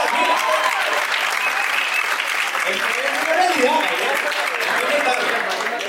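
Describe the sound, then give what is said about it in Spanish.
Audience applause, a dense and steady wash of clapping that holds at an even loudness for the whole stretch, with voices mixed in underneath. “¡Aplausos y todo!”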